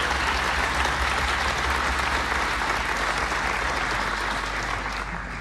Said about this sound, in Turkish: Ve onları gönülden alkışlıyoruz.